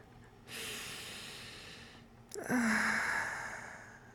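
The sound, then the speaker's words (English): Deep, slow breaths taken in and out during a guided breathing exercise: a long soft airy hiss, then a louder, fuller breath with a slight voiced tone that fades gradually, with no talk. “Just deep breaths in and out, like this.”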